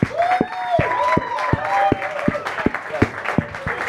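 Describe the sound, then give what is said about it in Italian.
Audience at a comedy night claps in a steady rhythm, the evenly spaced claps running under a person talking throughout. “Io vi chiedo un cazzo di grandissimo applauso.”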